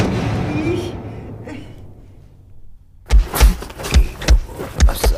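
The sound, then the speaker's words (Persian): A fist punches a wall in a quick run of heavy, dull thuds, several blows close together. A few seconds of murky, low background noise come before the blows. “منصور توی قاب مشت میزنه به دیوار.”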